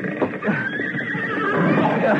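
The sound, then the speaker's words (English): A horse neighs in a long, loud whinny with a wavering, shaky pitch that carries over dense, busy noise. “Hurry! This is the last horse.”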